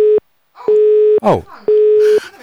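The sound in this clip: A telephone busy tone from a failed call: steady mid-pitched beeps of about half a second, separated by equal pauses, with three pulses heard and brief voice-like sounds between them.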